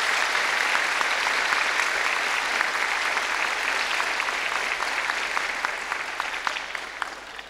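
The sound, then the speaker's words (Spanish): Sustained applause from an audience welcoming guests at a debate gathering: dense, even clapping that stays loud and steady throughout the seven seconds and thins only slightly at the end, with no talk. “les recibamos con un fuerte aplauso a estos hermanos”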